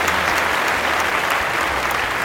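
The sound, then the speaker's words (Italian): Applause fills the whole stretch: dense, steady clapping at an even loud level from start to end, with no voices standing out. “Mi ha staccato una orecchia sta applauso”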